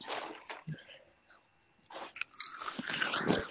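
Biting and chewing on sour strawberries: a few wet, crunchy mouth sounds in short bursts, with the densest chewing toward the end.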